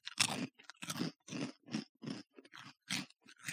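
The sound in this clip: Crunchy cereal chewed in a blind taste test: loud, rough crunches in an uneven rhythm, each bite a short gritty burst separated by brief gaps, with no talking.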